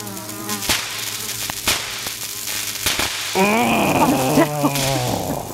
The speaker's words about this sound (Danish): Insekter i vindueskarmen, eller på gulvet, eller oppe i hjørnet, lige under loftet, eller hvor det er bare sådan, det er indenfor. Derfor så lyder det hjemme hos mig sådan her.